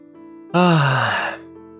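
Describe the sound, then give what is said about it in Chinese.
A single yawn, a breathy voiced groan under a second long that slides downward in pitch, heard over soft, steady background music. “雷蒙打了一个哈欠”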